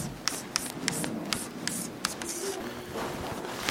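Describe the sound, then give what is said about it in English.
A question is written on a board in quiet scratchy strokes, with short ticks falling in a fairly regular rhythm, faint and steady, and no talk. “to write a question on the board.”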